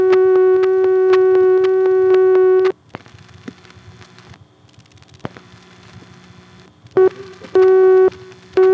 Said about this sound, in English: but we did get a busy signal tone trying to call directory assistance.